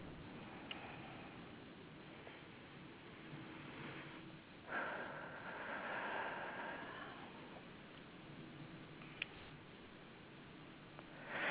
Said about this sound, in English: And just kind of let me breathe in, tune in myself here.